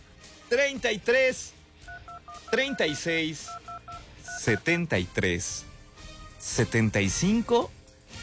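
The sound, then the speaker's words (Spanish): Telephone keypad DTMF tones as a number is dialed for a call-in contest show, short runs of clear pitched beeps alternating with bursts of lively speech. “¡Márcale ahora!”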